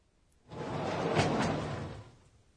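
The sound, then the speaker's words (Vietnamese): A sliding door pulled open, heard as a single smooth swish lasting about a second and a half that swells and then fades, alone. “Đây là âm thanh khi kéo cửa trượt để mở ra, phải không ạ?”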